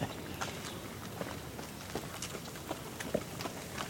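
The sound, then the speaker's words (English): Irregular, faint clunking footsteps of someone walking around outdoors while recording birdsong, many soft thuds spaced unevenly over a quiet background hiss. “And I was still walking around a little bit, so you can hear me clunking.”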